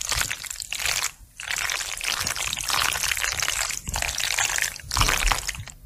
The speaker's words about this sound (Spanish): lo que hacen es se cuece un plato de macarrones con queso el día anterior, se deja que se enfríen y luego se remueve la olla frente al micro.